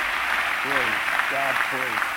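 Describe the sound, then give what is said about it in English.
A church audience at a revival service claps its hands in praise: steady, dense applause with voices rising over it at moments. “Give the Lord a hand clap of praise as you're seated today.”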